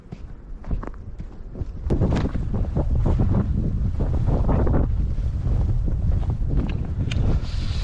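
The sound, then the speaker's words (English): Wind blowing outdoors and buffeting the microphone: gusty, roaring noise starts moderately, swells louder after about two seconds, and stays strong and uneven to the end. “Lots of wind here today. Lots of wind.”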